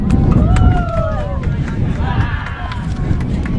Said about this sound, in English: Wind picking up, blowing my cover off.